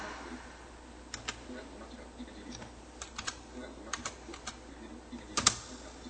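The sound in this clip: Computer keyboard keys, Tab and arrow keys, pressed while choosing a red font colour in a document: sparse, faint clicks come singly and in small clusters over a low steady hiss, with one sharper double tap near the end.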